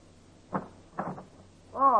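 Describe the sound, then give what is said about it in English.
Knocking on a janitor's door in an apartment-house basement: a few muffled raps in two small groups, fairly faint against a quiet background. “The second comes at exactly 9:25, when you're back in the basement knocking on the janitor's door.”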